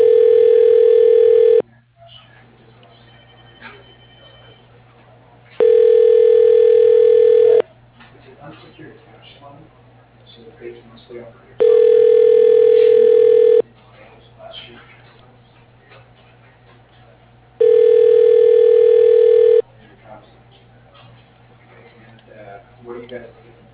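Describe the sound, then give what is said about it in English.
Telephone ringback tone during a call transfer on an office voicemail system: four steady, even-pitched two-second tone bursts separated by gaps of about four seconds, with faint low noise between rings. “please hold while your call is being transferred to Keith Estes.”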